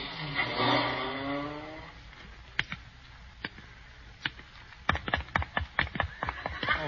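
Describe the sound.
A taxi cab engine pulls up and drives off, whining and wavering in pitch for about two seconds. Then come quieter stretches broken by a series of sharp clicks and knocks.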